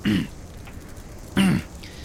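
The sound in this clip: Two short, fairly loud bursts of a person clearing their throat, about a second apart, with quiet in between and no speech.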